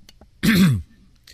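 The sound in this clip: A single throat clearing from one person: a loud, rough, guttural rasp lasting under half a second, with near silence before and after.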